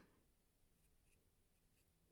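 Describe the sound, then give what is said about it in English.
Faint writing strokes traced on a person's right thigh, forming a letter: a soft, steady rubbing with no talk. “Now, on the right thigh, you're going to write O”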